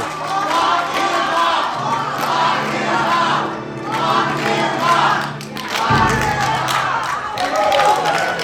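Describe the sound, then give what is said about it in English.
Women's March attendees in Brookings Harbor cheer and chant "lock him up" in loud, rhythmic bursts, the crowd's voices swelling and dipping between repetitions. “And what you're hearing is the Brookings Harbor Women's March attendees, some of them cheering and chanting, lock him up, after watching a video of mock-ups of certain members of the Trump administration and the campaign,”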